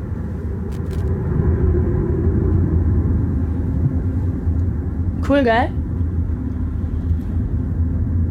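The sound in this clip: Steady, broad road rumble from a car tyre with sawtooth wear at about 50 km/h, continuous and even throughout, with a brief spoken remark and a short chirping sound over it.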